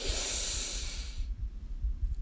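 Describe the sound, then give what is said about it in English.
Deep breathing in a morning breathing practice: a long, airy breath rushing steadily for over a second, then dropping away to quiet, low breathy rumbles with no voice. “Breathe in and out.”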